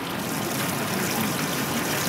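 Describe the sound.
Water trickling and splashing at a spot under plane trees in London near Hyde Park, a dense, steady hiss of flowing water at constant loudness with no voices.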